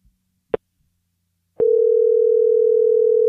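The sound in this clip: A telephone tone on an outgoing call, heard as a couple of sharp clicks followed by a steady, unbroken mid-pitched tone that holds to the end.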